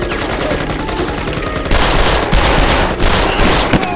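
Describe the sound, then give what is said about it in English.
Automatic gunfire rattles in loud, dense, sustained bursts, with no talking over it. “With a second burst, Bolin had ended his suffering with a blast of slugs.”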